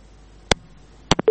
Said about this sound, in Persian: فکر کنم تماسی اینا قطع شد.